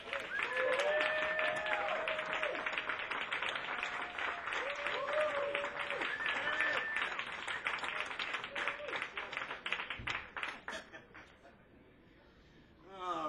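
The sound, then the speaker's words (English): Audience applause welcoming a big band to the stage: dense, loud clapping from a large crowd that holds steady for about eleven seconds, then thins out and drops away. “Ladies and gentlemen, please put your hands together and welcome to the stage, the Ed Palermo Big Band.”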